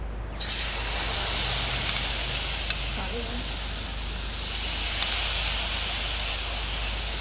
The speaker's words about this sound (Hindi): धुआं निकल रहा है, तेल लगभग गरम हो चुका है। अब हम इस आटे को मिक्स करते हुए पैन पे फैलाएंगे।